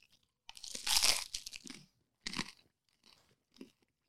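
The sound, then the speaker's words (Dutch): A crunchy bite into a sourdough cheese toastie with a cheese and onion mixture gives one loud, drawn-out crunch, then two shorter, softer crunches of chewing, with quiet gaps between them. “Het is een tosti op zuurdezenbrood met alleen kaas en een uimengsel. Kaas en mengsel. Hmm, ik ga, even proberen. Proeven.”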